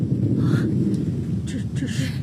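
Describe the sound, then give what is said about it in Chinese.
Thunder rolls as a deep, low rumble that stays steady and fairly loud throughout, with no other sound standing out. “这是打雷了。”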